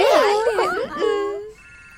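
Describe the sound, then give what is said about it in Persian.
A telephone rings as a call is placed: warbling electronic tones slide up and down for about a second and a half, then a softer, steady tone takes over. “من بهش زنگ میزنم میگم بیاد در موردش حرف بزن.”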